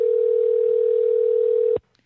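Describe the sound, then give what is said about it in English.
A telephone dial tone holds one steady pitch, then cuts off abruptly near the end, leaving faint clicks. “I'm just going to dial some numbers here and we're just going to see what happens.”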